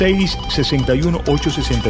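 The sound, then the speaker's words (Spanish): Telephone ringing with an incoming call during a phone-in: a bright, rapid trilling ring that runs through the whole moment, mixed with a prominent voice. “Por acá mi asistente me dice que tenemos ya la primera llamada. Ok, voy a agarrar esa llamada.”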